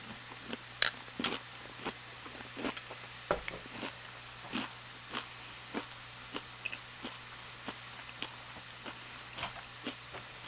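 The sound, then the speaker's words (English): Crunchy seed granola from 88 Acres is chewed mukbang style, giving many quiet, evenly spaced crunches in a steady rhythm over a low, constant hum, with no talking. “is this another granola mukbang? Yes, it is.”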